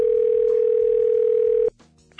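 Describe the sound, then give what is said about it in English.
A telephone dial tone plays as a call is being placed: one steady, unbroken tone, loud and alone, that cuts off abruptly near the end and leaves only faint scattered noises. “Why don't we try and get him on the phone?”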